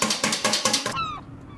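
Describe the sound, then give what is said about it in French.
Eggs are whisked in a quick, regular run of clattering strokes, followed by a brief squeaky tone. “je bats des œufs.”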